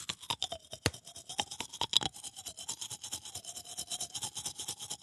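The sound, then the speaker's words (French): Toothbrush scrubbing as a man brushes his teeth: rapid, rhythmic bristle strokes, loud and steady throughout, with a faint wavering tone running beneath the scrubbing. “C'est un gars qui se brosse les dents.”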